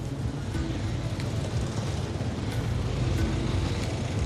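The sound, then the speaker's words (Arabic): Busy street traffic in Sayyida Zeinab, with motorbikes, cars and tuk-tuks, forms a steady, dense rumble of engines that holds at an even level throughout. “أول انطباع هي زحمة كبيرة في ست زينب، يعني من موتورات، سيارات، حتى التكاتك موجودة في ست زينب.”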